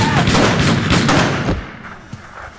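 Guns fire in a rapid burst of many shots in quick succession, loud and sharp, then stop abruptly, leaving a quiet stretch with a single faint click afterward.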